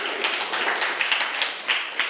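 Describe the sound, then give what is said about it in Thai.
Students in a classroom clap for a classmate who gave a correct answer. Light, scattered claps come as many quick taps at a fairly steady pace for about two seconds. “นักเรียนปรบมือให้เพื่อนด้วยนะครับ”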